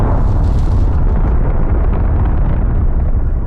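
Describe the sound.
An explosion at night sending flames into the sky over the south side of downtown: a loud, deep, continuous roaring rumble that holds steady throughout, with no voices.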